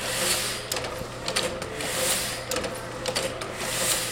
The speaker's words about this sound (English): These machines punch, cut, and print words on paper, which is what Luna Lux is all about